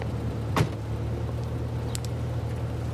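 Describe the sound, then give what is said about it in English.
A car pulls up outside a prison. A steady low engine rumble runs throughout, with one brief sharp sound near the start and no voices. “a car draws up.”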